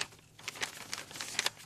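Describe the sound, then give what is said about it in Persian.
Pages of a fortune teller's book being turned, soft papery rustles and crinkles in a few quick brushes, very faint and with no other sound. “باش که من کتاب و ورق بزنم.”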